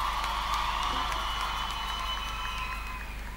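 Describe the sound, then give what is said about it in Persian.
An audience claps in honour of a singer at a live music event, a dense, steady wash of crowd applause that holds an even level throughout. “به افتخارش دست بزنیم”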